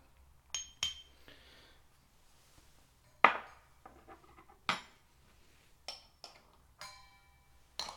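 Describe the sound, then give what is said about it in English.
A spoon clinks against a container while scooping matcha green tea powder. The sharp, bright taps come irregularly, about seven of them spread out and separated by quiet gaps. “So what I will do is just take around a little bit more than a half a spoon of this matcha.”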